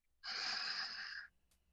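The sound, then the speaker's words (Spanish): One deep breath in, about a second long, comes as a soft airy rush during a guided breathing exercise, standing alone in an otherwise quiet moment. “Inhala.”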